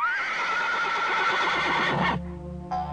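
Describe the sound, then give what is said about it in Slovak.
A horse neighs in a long, bright, wavering whinny that cuts off abruptly. A shorter, lower tail follows. No voices are heard. “Ale milý koník sa len striasol a zrazu zázrak zmenil sa na krásneho tátoša.”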